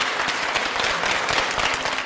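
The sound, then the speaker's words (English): Warm applause welcomes China's General Secretary and the Political Bureau Standing Committee members at the close of the Party Congress. The clapping is dense and steady, loud and unbroken from start to finish. “Please join me in a warm applause to welcome the General Secretary and other Political Bureau Standing Committee members.”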